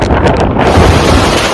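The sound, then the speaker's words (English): Hurricane Ian's winds in Florida, near Category 5 with 155 mph gusts, roar against the microphone in a loud, continuous, buffeting rumble with no voices. “155 miles per hour winds, 18-foot waves, epic destruction. Take a look at the cars now. They're all bunched into each other over there. The wind continues to ramp up.”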